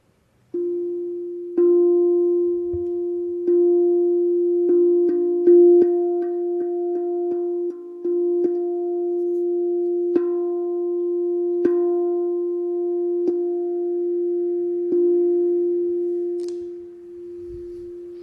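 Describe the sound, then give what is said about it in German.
A single sustained musical note F rings steadily for about seventeen seconds, a smooth, pure humming tone with faint overtones, joined now and then by a few soft clicks before it fades at the end. “Und ich spiele den Ton F.”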